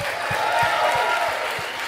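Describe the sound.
Audience applause at a live comedy show in Adelaide as a guest comes out: dense, steady clapping and crowd noise that continues without a break throughout.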